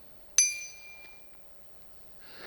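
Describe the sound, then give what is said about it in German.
A BBB 120 bicycle bell struck once, giving a sharp, bright ding whose high ringing fades over about a second. “Die Fahrradglocke BBB 120, die laut Händlerbeschreibung ein lautes und deutliches Pling macht.”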